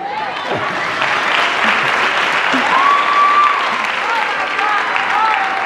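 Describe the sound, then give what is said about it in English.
Sustained audience applause, dense and steady from start to finish, with a voice faintly heard over the clapping. “Thank you. Clap for him.”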